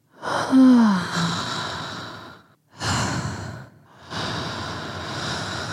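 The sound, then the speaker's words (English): Deep breathing during a meditation: a long, loud, rushing breath, followed by a shorter one and then a steady, sustained exhale, heard alone without talk. “Maybe there's another way. Maybe I just need to breathe.”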